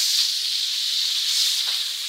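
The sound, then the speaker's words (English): Butter sizzling in a hot pan as fish fillets are prepared with lemon, herbs and garlic: a bright, steady frying hiss that holds constant, with faint swells and no voices. “So the butter's going in. And then the lemon.”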